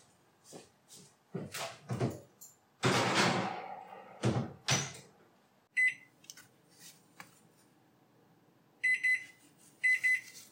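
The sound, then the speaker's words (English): Gluten-free Irish soda bread going into the oven: a burst of knocks, clunks and door thuds, then a quiet pause broken by a few short, high electronic beeps. “So we'll have foil ready to tent it if we need to, but into the oven it goes.”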